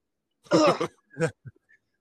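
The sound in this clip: Throat clearing: a few short, rasping voiced bursts, the first and longest followed by a shorter one and a faint tail, heard alone.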